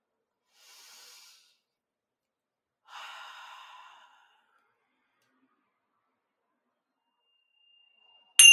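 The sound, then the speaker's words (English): Deep breaths during a guided breathing exercise: two soft, airy breath sounds separated by a pause, the second longer and somewhat louder than the first, followed after a long silence by a brief sharp noise at the very end. “I just took one deep breath. Let's do two more.”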